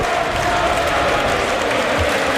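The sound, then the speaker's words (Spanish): A stadium crowd at a football match applauds a player being substituted off, a dense, steady roar of clapping and crowd noise that holds at one level throughout. “se marcha Skelly, aplaude la grada, le aplauden a él y va a entrar Martín Zubimendi.”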